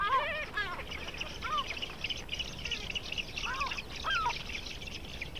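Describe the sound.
Spoonbill with its chicks: many short, high chirping and squeaky calls in scattered bursts over a steady background hiss.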